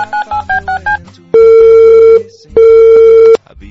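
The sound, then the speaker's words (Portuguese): A telephone call being placed: five quick dialing beeps in a steady rhythm, then two long, loud, steady ringing tones separated by a short gap, with no voices. “Já lá que os dois estão online, vamos ligar pros dois aqui.”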